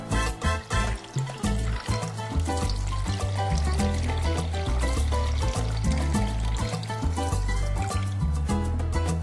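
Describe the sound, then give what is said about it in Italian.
Blood-red liquid pours into a chalice in a continuous splashing trickle that lasts about nine seconds. “Verso il sangue all'interno del calice.”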